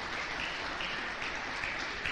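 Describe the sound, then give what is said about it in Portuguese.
Church audience applauding, a dense and even wash of many hands clapping that holds steady for the whole stretch at a moderate level, with no voices standing out. “Quem pode aplaudir a Deus?”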